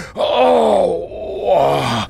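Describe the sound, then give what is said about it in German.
A man yelping and groaning in pain: two drawn-out, wordless moaning cries, the first longer and the second shorter and sinking lower in pitch, both loud. “Plötzlich jault er auf. Sie haben wohl starke Schmerzen, sagt Mathilda.”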